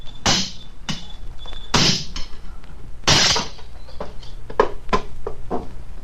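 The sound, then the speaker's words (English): Heavy metallic blows and clanks as the lock of an iron box is broken: a few loud strikes stand out among many smaller knocks, rattles and scrapes, with no voices. “An iron box. Sergeant, break the lock.”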